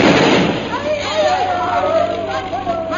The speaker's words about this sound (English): That bomb was dropped a half a mile ahead of us. Then hold your ears, Bhutan. This one is going to be closer.